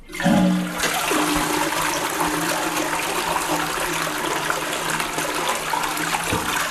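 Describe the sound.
A toilet flushes with a loud, steady rush of water that begins abruptly and holds for several seconds, with a faint trickle running beneath it.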